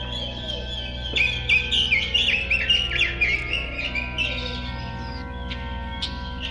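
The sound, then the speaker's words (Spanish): Birds chirping in a quick run of high, bright tweets that rise out of a steady tonal background, then thin to a few scattered chirps. “las palabras aire voladoras se convirtieron en bellos pájaros.”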